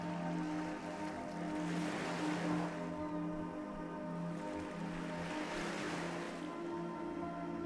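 Ocean waves break just offshore in a steady wash of surf, with two broad swells rising and fading, over a constant low tonal hum.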